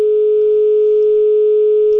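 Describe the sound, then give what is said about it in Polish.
A telephone line tone hums as a single steady, unbroken pitch, loud and alone, lasting about two seconds without pulsing. “Trzy połączenia i wszystkie gdzieś za głuchym sygnałem.”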